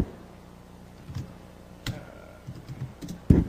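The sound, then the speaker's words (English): Computer keyboard typing comes through as sparse, irregular keystrokes, faint clicks and taps that build to a louder, firmer press near the end. “I got to put the microphone down so I can type.”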